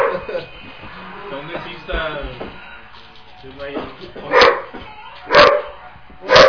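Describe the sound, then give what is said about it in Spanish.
A person imitates the barking dog from a Nintendo game, voicing three sharp bark-like yelps at fairly even intervals after a stretch of other voices talking. “Y luego está un perro ladrando. Perro ladrando. Sí, Nintendo está bien, ya. ¡No, ya está haciendo el perro!”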